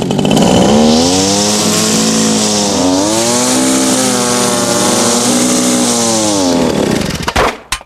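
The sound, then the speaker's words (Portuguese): A fuelled-up leaf blower runs with a loud, continuous small-engine roar, its pitch wavering slightly up and down before it cuts out abruptly at the end. “você abasteceu seu soprador de folhas?”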